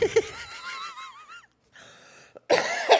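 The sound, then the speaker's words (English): Coughing: a strained, wavering vocal sound, then a few harsh, noisy bursts of coughing that end loudest. “I'm going to cough again.”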